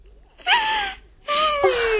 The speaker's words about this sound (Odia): ମୁଁ ଜାଣେ ପରା ତୁ ଏଇଠି ଏକା ଏକା ବସି ଏମିତି କାନ୍ଦୁଥିବୁ।